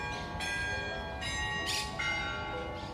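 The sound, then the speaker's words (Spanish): A church bell tolls the Angelus, a few resonant strokes whose long humming overtones overlap and sustain, fairly faint and even throughout. “Que casi se nos pasa el Ángelus. Menos mal que ha sido sonar el toque y todos nos hemos quedado parados casi como estatuas.”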